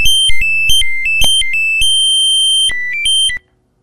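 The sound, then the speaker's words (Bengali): A phone line disconnecting during a call: a rapid series of electronic beeps jumping between two pitches, then a longer held tone that steps down a few times before cutting off abruptly into silence. “লাইনটি কেটে গেল।”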